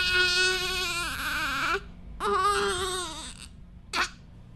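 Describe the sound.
A fussy newborn baby girl, delivered by C-section, cries in two long wavering wails followed by a short sharp cry, loud and alone against a quiet background.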